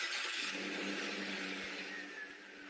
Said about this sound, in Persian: این صدای کامیون هایی است که با بار تولیدات داخلی به سوی مرزها میروند.